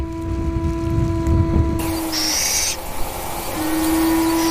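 An owl, a resident highland species nesting in a rock crevice, gives long, steady low hoots with a brief hiss between them.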